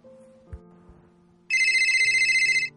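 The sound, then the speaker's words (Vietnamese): A mobile phone vibrates with a low, steady buzz, then a loud, high-pitched ringtone cuts in, warbling in rapid even pulses until it stops near the end. “thì điện thoại bỗng run lên”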